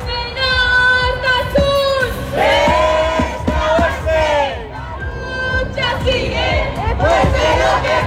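Hundreds of people at a pro-Palestine demonstration in the city centre shout chanted slogans. Strong, loud phrases repeat several times, separated by short dips as the crowd draws breath.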